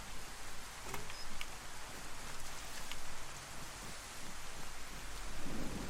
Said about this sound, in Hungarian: hogy rákezdett az eső?